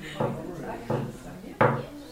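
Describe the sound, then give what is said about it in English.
Slow, patient knocking on a door: three hollow, wooden knocks spaced evenly about two-thirds of a second apart, each with a short resonant tail, the last a little louder. “there's a big difference between hearing the slow, patient knock of a concerned community volunteer and the constant banging of a dangerous stranger. Was it this?”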